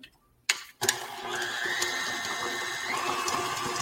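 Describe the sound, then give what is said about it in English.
Mechanical whirring of a rainbow whisk creaming plant-based butter batter, starting with a couple of sharp knocks after a brief silence, then a steady, rattling, gear-like drone that continues to the end. “Is that a rainbow mixer thing? Oh, yes. It's my new rainbow spatula or whisk.”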